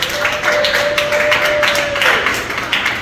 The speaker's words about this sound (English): Let's give my man an applause.